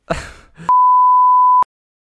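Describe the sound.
A censorship bleep: a steady pure beep lasting about a second cuts off speech, with a voice heard briefly just before it.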